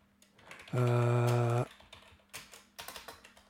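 Typing on a computer keyboard: a quick run of light, uneven key clicks follows a loud, steady buzzing tone that lasts just under a second.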